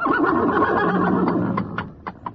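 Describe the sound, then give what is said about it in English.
A horse whinnies in the Limehouse district with a long, loud, wavering neigh lasting about two seconds, then trails off into a few short, sharp sounds. “The horse was known to haunt the district, and it was only a matter of time before...”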